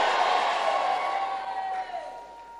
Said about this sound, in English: Come on, shout yay! Shout yay! Shout yay!